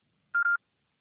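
A single electronic voicemail beep on a phone line: one steady, mid-pitched tone lasting about a quarter second, loud and alone after near silence.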